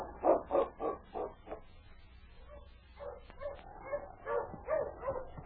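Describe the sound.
Husky sled dogs of a team barking, a quick run of several sharp, loud barks at the start, followed by softer whimpering yips and whines.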